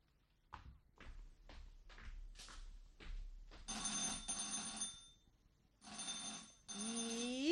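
An old-style telephone bell rings in a house. A few soft taps come first, then two long, fairly loud trilling rings separated by a short pause.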